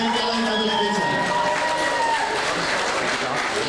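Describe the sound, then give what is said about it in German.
A crowd at a fan-club gathering applauds and cheers a delegation from FC Bayern München. The clapping is loud and unbroken, mixed with voices, and a held tonal sound runs through roughly the first half. “mit einem besonderen Applaus die Vertretung des FC Bayern München”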